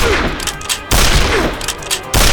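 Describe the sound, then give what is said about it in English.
Winchester rifle gunshots: a few loud, sharp cracks, each trailing into a rough, rumbling decay. “squeezed the Winchester's trigger”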